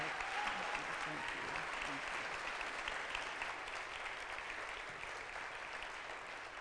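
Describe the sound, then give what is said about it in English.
An audience applauds to welcome a guest speaker at a church gathering. Many hands make a dense, steady clatter that stays loud throughout and eases slightly toward the end. “I want you to help me by putting your hands together”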